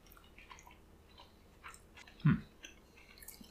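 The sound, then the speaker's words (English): Soft chewing of strawberry mochi: quiet, faint mouth sounds with one brief, louder squishy bite partway through, with no talking. “That's strawberry mochi.”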